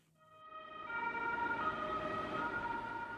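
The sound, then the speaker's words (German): An ambulance siren wails as the vehicle pulls up outside the Moncucco clinic in Lugano. The steady, tonal siren swells in loudness over the first second, then holds loud and even over a low rumble of traffic. “Vorbei ist der Lärm der Ambulanzen, die vor der Klinik Moncuco in Lugano vorfahren.”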